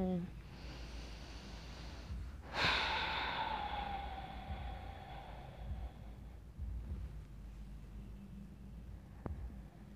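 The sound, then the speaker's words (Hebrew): A deep breath drawn and released through the mouth during a guided meditation, heard as a single soft, breathy sigh-like exhale over a low steady hum. “שאיפה לשחרור מהפה.”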